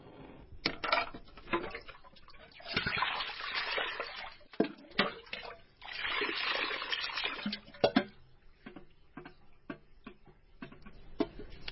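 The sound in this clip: Water runs and splashes over raw chicken as it is rinsed, a soft irregular trickle broken by many sharp clicks and taps.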